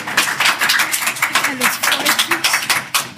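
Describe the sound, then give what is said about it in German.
A small group claps after winning a quiz game, quick sharp hand claps under a voice that keeps talking over them. “Mit Applaus.”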